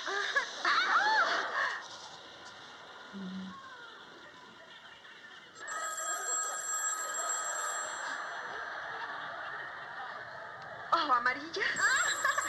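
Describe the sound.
A telephone rings with a bright, steady, buzzing tone that holds for several seconds. Voices are heard before and after the ringing.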